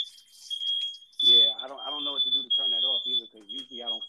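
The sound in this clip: A smoke alarm goes off in a kitchen during frying, sounding long, piercing high-pitched beeps in repeated bursts with short gaps. A man talks over it throughout.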